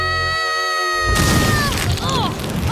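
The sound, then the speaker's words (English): A cartoon barbecue explodes: a sustained tone cuts off into a sudden loud boom, followed by a noisy, rumbling crash with warbling tones over it. “Barbecue explode!”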